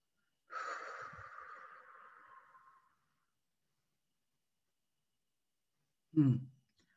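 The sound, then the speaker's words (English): Guided breathing: a long, noisy deep inhale lasting about two seconds, then roughly three seconds of held silence, followed by a single short, fuller exhale. “Last time, big inhale, hold it, exhale.”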